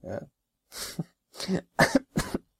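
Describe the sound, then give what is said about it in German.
Five rough, loud coughs come in quick succession, separated by short silent gaps. “Nein, das war jetzt wirklich, ich hab wirklich gehustet eben”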